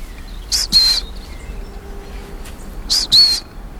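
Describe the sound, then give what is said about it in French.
A long-tailed tit gives thin, high trilling calls in two short pairs, separated by a gap, over a steady low background hiss. “Là, il y a de la mésange à longue queue. La petite trille qu'on entend à peine là.”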